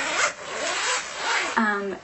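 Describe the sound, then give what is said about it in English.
A zipper pulled open around a soft padded folder: a few rasping strokes, with a brief voice at the end. “It closes up with this zipper, but then when you open it,”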